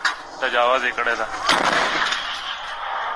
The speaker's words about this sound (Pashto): په دې ویډیو کې خودل کیږي چې ګنی په کونړ کې د طالبانو ځواکونه پر پاکستانی لوري د دیسی توپونو ډزې کوي.